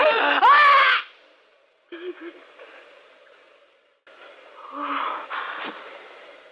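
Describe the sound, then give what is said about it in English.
A person choking and gasping for breath: a loud, strained wheezing cry at the start, then quieter rasping gasps and strangled breaths after a short pause. “You got my throat. Choking me.”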